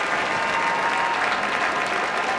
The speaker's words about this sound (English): as the audience here in the Kuzovitsky Music Shed and on the lawn show their appreciation for Beethoven's Sixth Symphony?